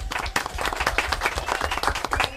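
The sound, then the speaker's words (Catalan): A small audience on a quiz show claps briskly after correct answers. The patter of many quick, uneven claps is fairly faint and stays steady throughout. “I dos encertat. Un aplaudiment, molt bé.”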